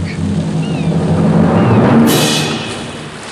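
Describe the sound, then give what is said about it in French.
Waves wash against the seaside on the north coast of Brittany in France, a steady broad rush of surf with one louder wave surging and breaking near the end before settling back. “elle vit seule dans une longère isolée en bord de mer. Nous nous trouvons sur la côte nord de la Bretagne, en France”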